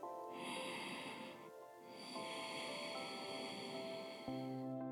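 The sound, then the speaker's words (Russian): Faint breathing in and out through the nose during a guided breathing exercise, with soft airy breaths over a steady tonal background hum. “Мы делаем просто вдох через нос и выдох через нос.”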